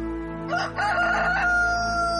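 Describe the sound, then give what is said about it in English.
A rooster gives a single loud crow, a harsh call of about a second that rises and then falls away, over a steady low background drone. “Then the rooster crowed.”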